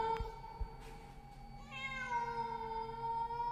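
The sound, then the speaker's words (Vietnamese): A cat's meow, a drawn-out harmonic cry that starts partway through and holds to the end. It is fairly faint and heard alone. “vật mềm mềm ấy mở đôi mắt xanh lè lè, rít lên một tiếng meo”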